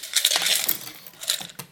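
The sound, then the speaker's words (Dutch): A cup of sticks is shaken until sticks fall out, giving dry clattering rattles. A long burst of rattling is followed by a few shorter, sharper bursts near the end, with no talking. “Een beetje schudden. En zo? Zo, dus dat je net zo lang totdat er eentje uitkomt.”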